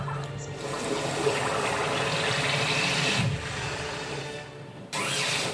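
Water splash attack in a turn-based video game battle: a sustained, hissing watery rush that holds for several seconds, dips briefly, then surges back in a sharp renewed burst near the end.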